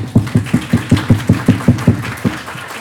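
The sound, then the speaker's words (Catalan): An audience claps hard and very fast, making a run of about a dozen sharp, loud claps in a quick, even rhythm that stops shortly before the end. “picarem ben fort de mans, però superràpid, així.”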